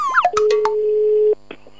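Telephone line tones sound as a radio host places a call: a few quick dialing beeps, then a single steady pure tone that holds for about a second before cutting off, followed by faint brief tones.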